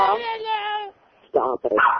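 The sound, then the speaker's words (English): A dog in the background of a household conversation gives a few short, sharp, yipping barks close together near the end, after a longer tonal whine-like stretch and a brief pause. “Oh, there's a dog, too.”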